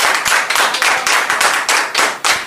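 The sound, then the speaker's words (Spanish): Loud, steady rhythmic clapping that closes a cumbia sound-system radio show. Many hand claps land in an even beat, with no talking over them. “Un fuerte aplauso para todos ustedes.”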